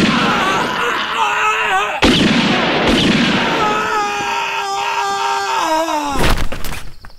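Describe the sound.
A sharp gunshot sound effect bursts out in a comedy skit, followed by a long, wavering wail and groan from a voice, then another loud noisy burst near the end.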